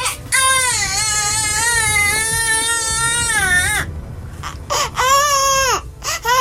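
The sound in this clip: Newborn sextuplet babies cry in loud, high, wavering wails: one long sustained cry, then shorter, broken bursts.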